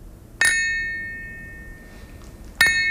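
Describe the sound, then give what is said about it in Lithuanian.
A thin, fine lead crystal glass rings when struck, twice. Each strike gives a bright, bell-like chime with long, shimmering overtones that slowly fade. The second strike comes near the end. “Nebrangus stiklas. O taip skamba plonas gražus krištolas.”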